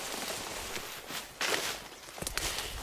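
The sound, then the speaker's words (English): Footsteps tread along a pathway back toward a wilderness campsite, a faint, steady series of soft crunching steps over a hissy outdoor background. “Now, I'm gonna walk back, I'm gonna bring you back here”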